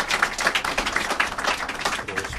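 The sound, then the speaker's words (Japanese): Audience clapping to welcome two guests at a Japanese event, many crisp, distinct claps in a fairly even rhythm, moderately loud throughout. “懐かしい2人来てくれました。拍手でお迎えください。”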